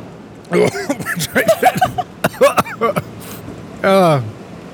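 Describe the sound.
Coughing and throat-clearing follow a bit of pepper caught in the throat while tasting vegetable-flavored gelato. A run of short, harsh, voiced bursts comes in an uneven rhythm, ending with one longer strained sound.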